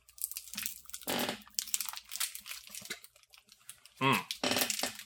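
Crinkling of tough plastic wrapping on a small hard mint candy as someone struggles to tear it open: a few short, crisp bursts of crackling and rustling separated by quieter gaps.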